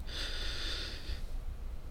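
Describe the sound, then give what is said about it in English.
One person breathes in: a single steady, airy inhale of about a second, then near silence. “Breathe in.”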